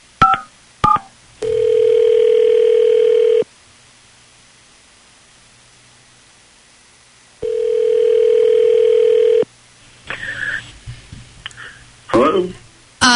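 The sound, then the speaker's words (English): A telephone call ringing out: a few brief dialing clicks, then two long, steady ringback tones separated by a stretch of silence, followed by clicking and crackling on the line. “Nicole, we will call your man Brody right now.”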